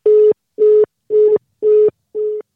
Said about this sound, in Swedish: Då provar vi att ringa en till ungdom.